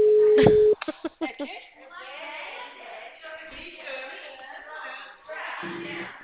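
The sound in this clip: A loud, steady telephone ringback tone sounds briefly while a call is being placed. A burst of sharp clicks follows, then a person talks quietly over the line.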